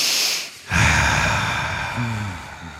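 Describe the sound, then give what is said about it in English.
A deep breath taken slowly: a short airy rush of air, a brief pause, then a long, loud, sustained breath that gradually eases off, with a couple of brief low voiced murmurs near the end. “So we can just do a deep breath together.”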